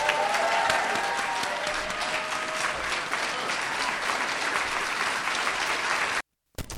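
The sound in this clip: Sustained applause from an audience greets Angela Davis taking the stage at a Chicago afternoon rally, a loud, even wash of clapping that holds steady for about six seconds and then cuts off abruptly.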